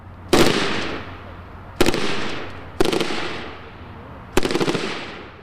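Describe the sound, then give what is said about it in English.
Four separate bursts of fire from an M249 squad automatic weapon machine gun at a firing range. Each burst is a loud, rapid string of shots that ends in a decaying echo tail, with short quiet gaps between bursts. “We drive to a firing range where Marines are working with the M249 Squad Automatic Weapon.”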